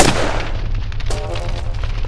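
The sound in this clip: A single loud gunshot cracks at the start, then a low booming rumble lingers and fades unevenly.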